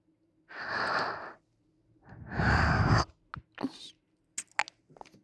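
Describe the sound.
Two long, airy breaths from a person during an intimate moment, soft and drawn out, followed by a few small clicks and rustles.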